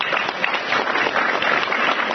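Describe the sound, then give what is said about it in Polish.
Dense, continuous applause from an audience at a local county council election event in Lidzbark Warmiński, steady and loud for the whole stretch without a pause. “Wielkie brawa.”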